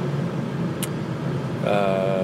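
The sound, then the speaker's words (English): Interior road noise from a car while driving: a steady low rumble throughout, with a brief faint squeak and a soft tonal hum joining near the end. “I'm doing this in the car on the drive”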